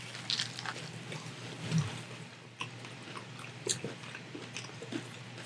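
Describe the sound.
Someone bites into and chews a spicy sandwich close to the mic, making a few faint crunchy bites followed by soft, wet chewing, with no talk over it.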